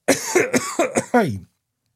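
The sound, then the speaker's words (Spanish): Quick series of harsh coughs from a man, several bursts packed close together in just over a second, with the final cough longer and dropping in pitch before silence. “voy a toser”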